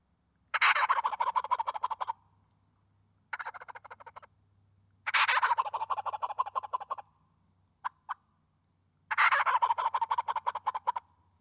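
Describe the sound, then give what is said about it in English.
A gobble call blown full bore makes loud turkey gobbles: four long rattling bursts with quiet gaps between them, the second burst shorter, and a brief double tap between the third and fourth. “And it's key too at the end of that to just slow that down a little bit. You know, if you end it fast, it doesn't sound natural.”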